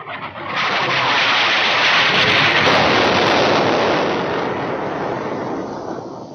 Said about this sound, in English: Jim, we're being shelled. We're under attack. Quickly, get down.